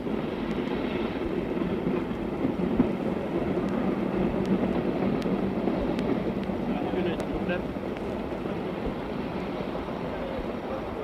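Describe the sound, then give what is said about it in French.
A train pulls into a station, a steady low rumbling roll that holds evenly throughout with a few faint sharp ticks and squeaks above it. “Voici qu'apparaît le train. Il entre en gare venant de la direction de Lavaux”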